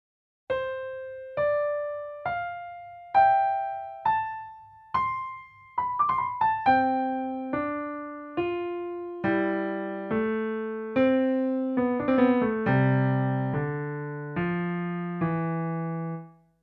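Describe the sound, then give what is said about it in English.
Piano playing a four-note theme that repeats several times. Clear single notes ring out at first, then lower notes join in and the entries begin to overlap, building a fuller sound before fading out. “You'll hear this theme of four notes, five times in all. On the piano, it sounds like this.”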